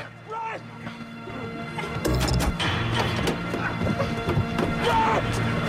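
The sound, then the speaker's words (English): A car window smashes as it is kicked in during a struggle with agents. A loud crash comes midway, surrounded by scuffling thuds and knocks, with raised voices over the commotion. “Wrestling with the agents, Ash kicks in the window, then hits the door release so Telly can get out.”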